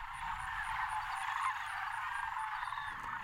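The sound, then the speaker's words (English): A big flock of sandhill cranes calls together in a dense, continuous chorus of rolling, croaking cries that holds at a steady level throughout. “What you just heard was a big flock of sandhill cranes.”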